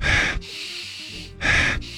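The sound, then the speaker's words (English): A person sniffing and snorting through the nose: two harsh, loud nasal bursts with a quieter, airy stretch between them. “Sniff. Snort. Snort. You almost did a little loogie thing.”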